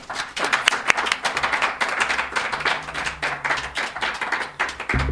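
An audience claps to welcome an author to a reading of his first book at an independent bookstore, with a ragged, uneven patter of individual hand claps throughout.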